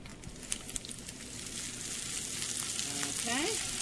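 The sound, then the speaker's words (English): Scallions sizzle with sausages in a frying pan, a steady, dense crackling hiss that grows slightly louder, with a few sharp ticks near the start. “so we throw this right into the sausages.”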